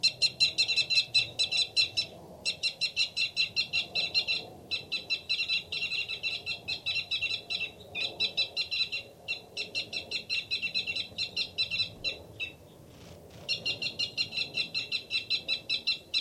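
Rapid, high-pitched fight calls from a male bird, given in a long series of quick repeated bursts separated by short gaps. The calls are loud and sound alone, with no voices.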